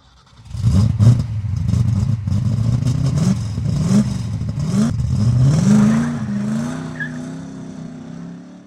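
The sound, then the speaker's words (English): An old F-Coupe accelerates hard, kicking up dirt and gravel, its engine droning loudly with a pitch that climbs in stages before leveling off and easing away toward the end. “I drove as fast as the old F-Coupe could go, kicking up dirt and gravel behind me.”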